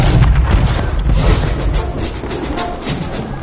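A gunfire volley fired on command during a historical reenactment of the Carabobo bicentenary campaign: a loud, sustained booming rumble with no clearly separate shots, easing slightly toward the end.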